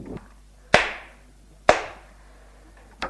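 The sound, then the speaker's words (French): Slap to the face as a woman rises from the bed and strikes a man: two loud, sharp cracks about a second apart with quick decays, then a softer third crack near the end. “En le voyant, elle se lève. Et le gifle.”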